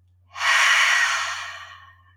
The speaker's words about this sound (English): So, after those three deep breaths, just remind yourself that whatever you tell yourself is true.